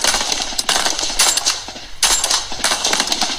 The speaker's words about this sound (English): Oh, we're getting shot.